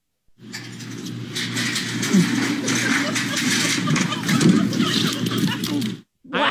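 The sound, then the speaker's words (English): A person in full gear shoots fast down a metal slide meant for children under 12, a loud continuous rumbling, rattling roar lasting about six seconds that stops abruptly, then a brief final thump. “was violently shot out like a cannon. Oh my God. Out of this metal slide. Apparently, it's intended for children under 12. Oh. Listen to the sound.”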